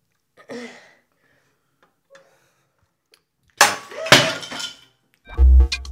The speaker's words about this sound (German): Der Spiegel ist zersprungen und du blutest.